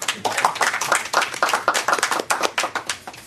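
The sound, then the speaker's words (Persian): An audience claps to welcome a speaker: many hands strike in a brisk, steady patter that stays fairly loud and even from start to finish. “خلاصه دیگه برای استقبال ایشان لطفا دست بزنید.”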